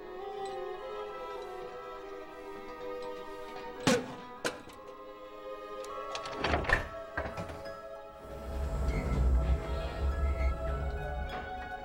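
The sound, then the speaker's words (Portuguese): A door creaks in an animated Ice Age film, a drawn-out, tonal groan broken by a few sharp thuds midway and followed by a low rumble, with no voices. “Uma porta que range. Que ótimo.”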